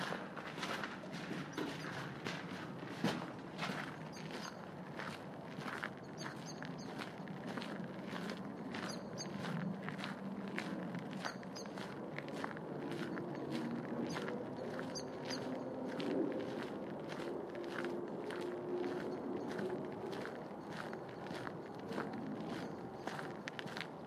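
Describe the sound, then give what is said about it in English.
Footsteps walk through a rural entrance toward a chapel. Many faint, evenly spaced steps continue throughout over a low, steady background. “So let's start walking through this entrance.”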